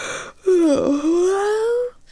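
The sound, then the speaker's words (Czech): A quiet yawn in a fairy-tale landscape scene: a long voiced tone dips briefly, then climbs slowly and holds for over a second before breaking off, with no talk around it. “krajinu protkalo tiché zívnutí”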